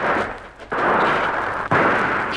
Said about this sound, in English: They've seen us. Yes. Firing from the trees down there.